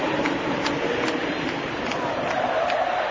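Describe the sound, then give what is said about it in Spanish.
Football stadium crowd during a stoppage while an injured, cramping player is down: a low, steady roar and murmur of many voices, even throughout, with no sharp cheers. “Escuchen el público.”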